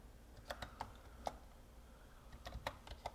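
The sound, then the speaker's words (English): Soft key taps sound as a phone number is typed on a keyboard, a scattered, irregular series of faint clicks coming in small bursts. “Let me see. I gotta type out his number.”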